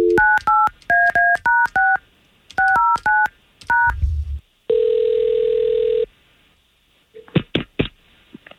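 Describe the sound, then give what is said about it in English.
Telephone keypad tones while placing a call: two quick groups of short, even dialing beeps, then a single long steady ringing tone, followed by a few faint clicks. “we're going to try to get Heather on the line”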